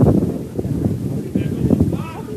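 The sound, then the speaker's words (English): Wind buffets a field microphone at a baseball game, a steady low rumble with gusty swells and faint voices under it. “And you can hear the wind picking up a little bit on our field mic.”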